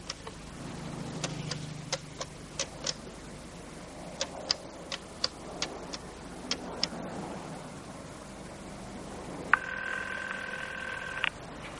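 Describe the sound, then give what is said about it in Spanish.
Telephone number being dialed at a house in Florida, a series of faint, sharp clicks spaced out over several seconds, followed near the end by a steady tone. “Halloran marca un número de teléfono.”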